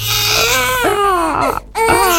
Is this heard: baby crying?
yes